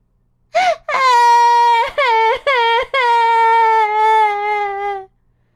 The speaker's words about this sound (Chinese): 小马德琳坐在床上哭啊哭，把两只眼睛都哭红了。